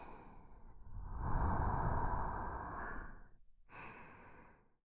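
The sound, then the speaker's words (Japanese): A person takes one deep breath: a long, breathy inhale lasting a couple of seconds, then a shorter sighing exhale, soft and unaccompanied by any talking. “深呼吸をしましょう。はい、吸って、吐いて、”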